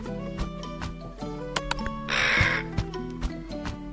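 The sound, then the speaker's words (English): A black crow angrily pecks at a telescope and gives one harsh, raspy caw midway. The call cuts through a steady tonal musical background scattered with sharp clicks. “A black crow angrily pecks at the telescope.”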